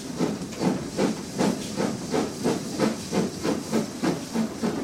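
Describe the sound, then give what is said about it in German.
Steam locomotive hissing and chuffing as it crosses the Panama isthmus. The bursts of steam come in a steady, even rhythm, many in a row, over a constant background hiss. “Sechs Stunden später erreicht der Zug die malerische Stadt Panama auf der anderen Seite des Isthmus.”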